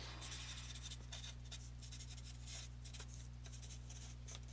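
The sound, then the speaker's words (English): Someone writes notes by hand, the faint scratchy strokes coming in quick irregular bursts over a steady low hum. “Just writing some things down, that's all.”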